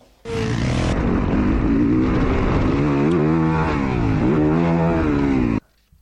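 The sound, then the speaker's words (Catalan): A four-stroke motocross motorcycle engine revs loud and steady for about five seconds, its pitch rising and falling a few times before it cuts off. “Això és una moto de motocross, no et puc dir no et puc dir la marca, però sí que et puc dir que és una moto de 4 i mig, de 4 temps, de motocross.”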